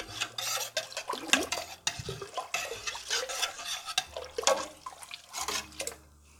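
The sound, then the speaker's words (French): Stirring three spices into broth in a pot as it heats: repeated scraping and faint clinking strokes in an irregular rhythm, with soft liquid sounds between them and no talking. “Je vais mettre à chauffer. Et je vais surtout remuer tout ça pour bien répartir les épices dans le bouillon.”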